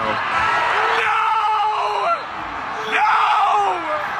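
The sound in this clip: A recorded person screaming in anguish: two long, strained wailing cries, the second following a brief dip in loudness.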